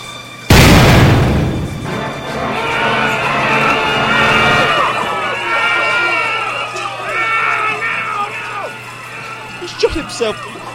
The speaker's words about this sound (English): That's a gun! What's he doing?